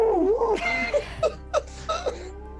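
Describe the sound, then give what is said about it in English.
A cat yowls and moans in a string of short, wavering, whiny calls. A longer rising-and-falling cry comes at the start, followed by several brief, fairly faint yowls. “Oh, kitty. Oh, kitty. Cat does not like Harrison.”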